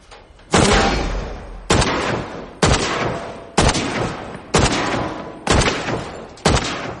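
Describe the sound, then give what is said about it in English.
Seven loud, sharp rifle shots strike the rusted tin roof of a dilapidated house in a field of tall grass, evenly spaced about a second apart, each cracking sharply and then ringing down. “Nitram shoots a rifle at the rusted tin roof of a dilapidated house.”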